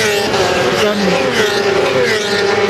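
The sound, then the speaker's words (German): A motorcycle races past at a race track near the pit lane, its high-revving engine a loud, dense harmonic whine that holds steady and then drops slightly in pitch toward the end. “also Motorrad ist natürlich komplett was anderes wie Autofahren. Du bist, hast nur zwei Räder und bist dem Asphalt gefühlt viel näher wie im Auto. Ja, und jetzt, wenn du es gleich hörst,”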